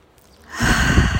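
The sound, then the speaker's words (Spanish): A deep inhalation drawn through the nose, filling the lungs: one long, airy breath that starts quietly and swells to a steady rush lasting over half a second. “puedes también hacer unas cuantas respiraciones inhalando profundo por la nariz, llenando bien los pulmones,”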